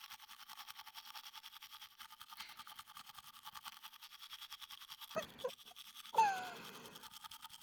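A toothbrush scrubs teeth in soft, rapid, evenly repeating strokes, faint and steady throughout, with a couple of brief louder breathy noises near the end.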